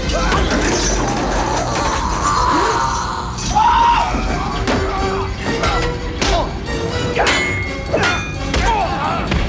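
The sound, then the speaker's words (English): Punches and shovel blows land in a fight, with many heavy thuds, whacks and crashing impacts in dense, rapid succession throughout. “The screaming man attacks Jim with the shovel and Jim punches him in the face. The man with the spike swings his spanner at Jim, who parries the blows.”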